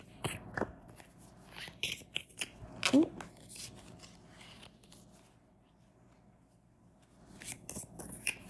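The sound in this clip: Tarot cards shuffled by hand in quiet bursts of dry, papery riffling and flicking, with brief pauses between and a livelier flurry of shuffling at the end; a voice is briefly present.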